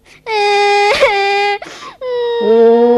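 A child crying in long, sustained tonal wails, loud and steady, broken by one short catch of breath before a second wail that steps down lower in pitch near its end.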